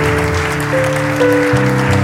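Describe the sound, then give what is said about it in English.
Congregation clapping hands during a church service, a patter of claps blended with loud sustained music chords, the clapping lying partly beneath the music. “Let's clap our hands for them as they come.”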